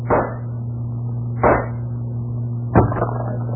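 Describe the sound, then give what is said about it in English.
Gunshots fired to blow a lock off, a radio drama sound effect: three sharp, muffled bursts roughly 1.3 seconds apart over a constant low hum. “Shoot the lock off.”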